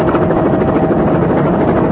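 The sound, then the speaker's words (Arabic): A helicopter drones loudly and steadily, a dense continuous engine-and-rotor roar with no pauses or breaks. “أي هليكوبتر؟ تلك الطائرة التي هناك، إنها تحمل شعار محطتكم.”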